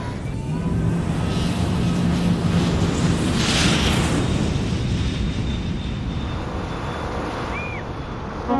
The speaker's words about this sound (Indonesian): oke siap-siap ya teman Nusantara kita bakalan terbang ke Banda Aceh